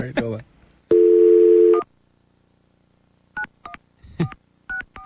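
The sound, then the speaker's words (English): Telephone keypad dialing: a steady dual-tone dial tone holds for almost a second, followed after a pause by a series of short, clipped keypad beeps at varying pitches. “You better dial him back.”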